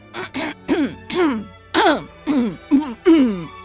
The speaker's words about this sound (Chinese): 说到这里，他停了下来，清了一下嗓子。